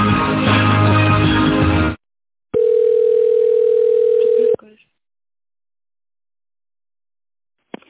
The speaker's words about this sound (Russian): Я вас переключу на экономический отдел, они вас, скорее всего, ориентируют.